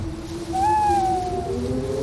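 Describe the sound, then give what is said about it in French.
An owl calls in a Northumberland forest, giving one sustained, tonal hoot that swells and slowly fades over a steady low background hum. No one speaks. “Tu as reconnu? Oui, c'est exact. C'est une chouette. Pas n'importe laquelle, évidemment. Une chouette de la forêt de Northumberland.”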